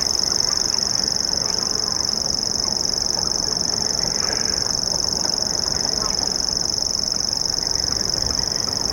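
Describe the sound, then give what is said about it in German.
Birds active at dusk and at night give a continuous high, even reeling trill, like a sewing machine, that runs unbroken over a low background rumble. “Ja, das sind auch Vögel. Am Tag eher seltener zu hören, eher so dämmerungsaktiv, aber auch nachts, alle drei. Und so begleitete uns dieses Geräusch durch die ersten Stunden.”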